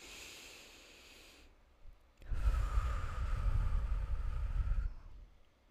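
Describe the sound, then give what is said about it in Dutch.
A slow, deep breath in, heard as a soft airy hiss, is followed after a short pause by a longer, louder and breathier exhale lasting about three seconds. “Adem diep in en uit.”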